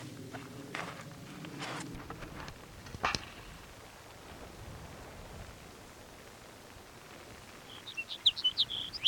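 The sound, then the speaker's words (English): Sage sparrow song: a few quick, high chirping notes near the end, following a stretch of rustling and handling noise with a soft background hiss. “Got sage sparrow number one singing.”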